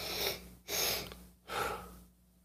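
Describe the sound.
Deliberate breathing in a set pattern of two inhales and one exhale, as a breathing exercise done before using a phone. Three airy, fairly loud breaths follow in steady rhythm with no talk.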